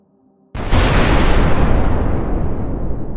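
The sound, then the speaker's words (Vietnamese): A dynamite blast set off to break open the back of a Buddha statue: a single sudden, deep boom after near silence, followed by a loud roaring rumble that fades only slightly through to the end. “Ầm một tiếng thật lớn, chờ khói bụi tan đi, 3 người tiến lên xem.”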